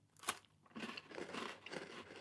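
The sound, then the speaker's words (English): Crunching as a bourbon biscuit is bitten and chewed: one sharp crisp crunch, then a few crackly bursts of chewing, all quiet and close. “When you first put it in your mouth, you're just eating crunchy nothing.”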